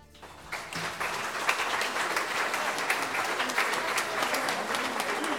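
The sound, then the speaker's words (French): A long ovation from a crowd: dense, steady applause swells in after a quieter first moment and then holds at an even, full loudness to the end, with no voices standing out. “S'ensuivit une longue ovation où la ferveur se teintait de l'espoir irréel d'une liberté retrouvée.”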